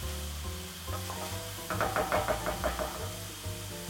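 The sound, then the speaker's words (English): Onion sautéing in a pan gives a steady frying sizzle, with a few stirring clatters and knocks in the middle. “And I'm gonna saute the onion first until it sweats.”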